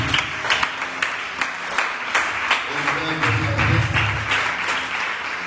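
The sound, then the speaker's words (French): A church audience applauds and acclaims, clapping in a steady rhythm with voices rising alongside, moderately loud throughout. “On va acclamer le Seigneur à ce moment de Dieu.”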